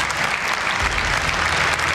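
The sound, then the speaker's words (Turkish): Applause in a congress hall for the Palestinian president, dense and sustained clapping from many hands that stays loud and even from start to finish. “Filistinli başkan salondakiler tarafından alkışlandı.”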